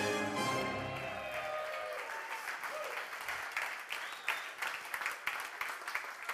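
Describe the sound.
Audience applause welcomes a presenter onto a sports show as a busy patter of many hands clapping that carries on steadily and fairly faint.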